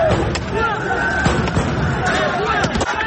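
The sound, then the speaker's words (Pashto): PTI protesters in Mardan make noise while protesting Imran Khan's arrest, a dense, continuous din of many voices shouting together with rough, noisy peaks throughout. “دا په مردان کې د پاکستان تحریک انصاف د کارکونکو آوازونه دي چې د نهې په ورځ یې د پخواني وزیر اعظم عمران خان د گرفتارۍ پر ضد احتجاج کولو.”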